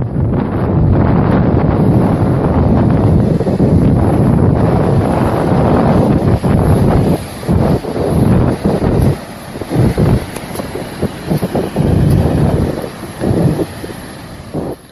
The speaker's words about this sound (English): That's the sound of the Oregon coast